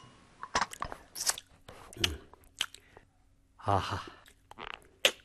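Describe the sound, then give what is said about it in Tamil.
People sit down to a home-cooked meal of rice and curry, chewing and crunching in irregular bursts with soft breaths between mouthfuls. “உட்காரு உட்காரு, சாப்பிடலாம் உட்காரு. போதும் போதும்.”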